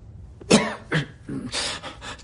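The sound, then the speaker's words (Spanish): A man vomiting on the roof of a building overlooking a damaged nuclear reactor, heard as a few harsh, throaty retching bursts of moderate loudness in quick succession, with no talk over them. “Vomita.”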